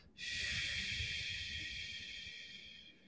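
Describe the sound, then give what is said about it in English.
A long, steady exhale blown out through the mouth, as if blowing out a candle, during a guided breathing exercise. It is one continuous airy hiss lasting about three seconds that fades slightly toward the end. “Let's exhale out the breath through the mouth like you're blowing out a candle.”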